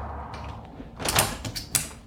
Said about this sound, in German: ich mache auch wieder das Fenster zu